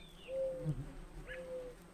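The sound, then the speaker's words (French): Doves cooing high on tall towers: two faint, soft, low-pitched coos separated by a short pause, with a brief higher bird chirp at the start. “Des colombes roucoulaient en haut de tours vertigineuses.”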